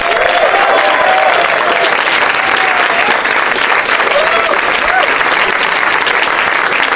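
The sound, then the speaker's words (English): Loud, sustained applause from a comedy show's studio audience welcoming four guests onstage, a dense unbroken roar of clapping with a few voices calling out through it. “Yay, yeah, keep clapping loudly into my ear.”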